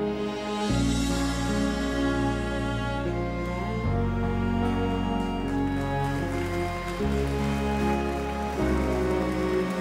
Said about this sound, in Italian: È proprio tanto che piove